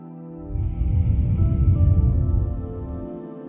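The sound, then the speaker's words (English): One slow breath drawn and released through the nose during a guided meditation, a soft, airy rush that swells over half a second, holds for about two seconds and fades away, with no talk. “we're going to have 10 cycles of inhaling and exhaling.”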